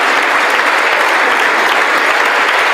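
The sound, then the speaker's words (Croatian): Loud applause and ovations fill the US Congress during a speech by Ukraine's president. The clapping is dense, steady and unbroken throughout, with no voices above it. “Volodimir Zelenski održao je moćan govor u Američkom kongresu, te uz pljesak i ovacije razvio zastavu iz razorenog grada Bahmuta.”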